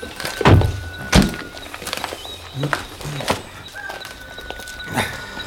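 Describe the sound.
Car doors thud shut a few times as three people climb out of a vehicle halted at the barrier of a deserted, locked parking lot at night; the sharp slams stand out over a low, steady hiss.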